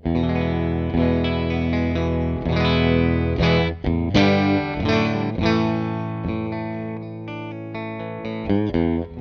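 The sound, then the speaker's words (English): Clean electric guitar tone from a Stratocaster's single-coil bridge pickup with the tone knob turned down, through a Mesa Boogie Lone Star amp: strummed chords and picked notes ringing with long sustain, played alone at an even level. “This is on the bridge clean tone through the Mesa Boogie. Sounds like this.”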